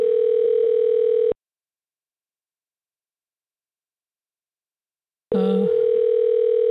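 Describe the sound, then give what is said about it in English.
A telephone dial tone sounds while a call is being placed. The steady, continuous tone cuts off abruptly, leaves about four seconds of silence, then returns with a brief overlapping sound at its start. “We're gonna give Mary a call here.”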